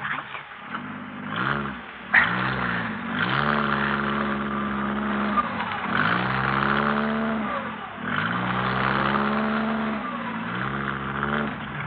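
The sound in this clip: A car engine revs hard as the car is shifted into reverse and driven. Its harmonic drone rises and falls several times in surging waves, loud and continuous, with no voices.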